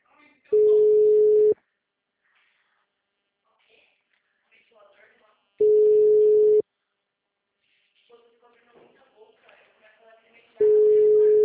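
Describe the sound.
Telephone line tone while a call is being placed: three steady, mid-pitched beeps, each about a second long at even intervals, with faint voices murmuring in the quiet gaps between them.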